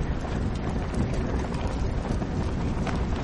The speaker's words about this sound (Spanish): El viento entra por la abertura.